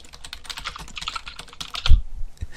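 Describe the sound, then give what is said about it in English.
Typing on a computer keyboard: a quick, steady run of many clicky keystrokes, with one louder thumping key press near the end, heard alone without talk. “let me type it in”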